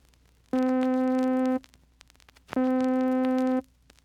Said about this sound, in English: When growth and decay are both rapid, it sounds like this.